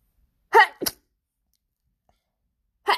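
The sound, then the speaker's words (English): A person sneezing: a sharp, explosive burst with a quick second catch right after it, then silence and one more short, breathy burst near the end. “I'm going to sneeze.”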